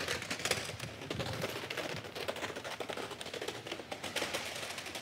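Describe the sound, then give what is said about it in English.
VHS videotapes toppling over one after another like dominoes, making a dense, rapid clatter of plastic knocks that runs without a break from start to finish. “So let's see what happens if our first videotape, our VHS videotape, reaches its tipping point and leaves its position as vertical.”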